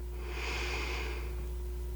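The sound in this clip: A slow breath drawn in during a calming breathing exercise: a soft, airy hiss that swells for about a second over a faint low hum, then fades.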